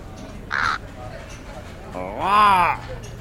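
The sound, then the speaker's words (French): A crow caws twice in Marseille, a short harsh call followed by a longer, louder, rasping caw, both standing out clearly against a quiet background. “Un corbeau. Un corbeau marseillais.”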